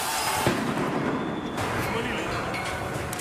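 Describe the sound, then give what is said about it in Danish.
Riot noise as demonstrators throw Molotov cocktails at police: a dense, continuous roar with a few sharp bangs and crackles, and voices mixed into the din. “det er en video, hvor demonstranterne kaster med Molotov-cocktails mod politiet, og der går faktisk ild i flere af betjentene”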